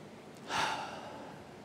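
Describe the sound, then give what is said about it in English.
One deep breath, soft and airy, that swells quickly and then trails off slowly into quiet background. “Why don't you do that with me, right? Even if you're watching, let's take a deep breath.”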